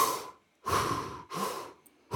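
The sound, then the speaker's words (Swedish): Deep breathing from the belly as part of a breathing exercise: several long, airy breaths drawn and released in a slow, even rhythm. Short silent pauses separate them, with no talk. “Man tar 30 djupa andetag.”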